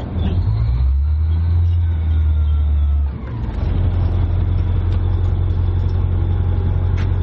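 Engine of a British AS-90 self-propelled artillery gun running. It gives a steady, heavy rumble that dips briefly partway through, then resumes and holds at the same level, with no voices.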